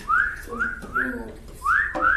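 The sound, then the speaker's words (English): A person whistling four short notes, each sliding upward in pitch, clear and fairly loud, with brief gaps between them. “Okay, now this one so is W. It's whistle.”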